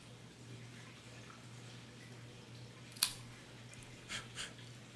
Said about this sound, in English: I am using the Cigarism Hollow Cut Guillotine Cutter. You all know that I do love this particular cutter from Cigarism.